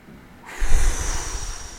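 A single loud, heavy exhale. The breathy rush starts abruptly and tapers off over about a second, with no talking.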